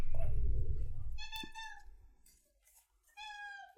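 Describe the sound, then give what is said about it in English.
Two drawn-out meows from a cartoon-style cat, each tonal and steady in pitch, come after an opening stretch of low rumbling noise. The first meow is stronger and the second arrives after a brief pause. “What the hell was that thing? Was that the cat? Yep.”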